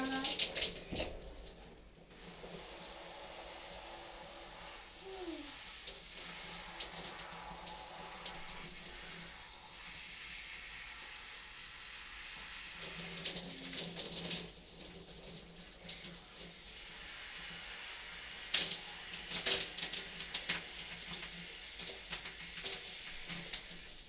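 Water runs from a tap in a continuous, fairly soft hiss with a modest, low-pressure flow. It holds steady for a long stretch, with small shifts in texture.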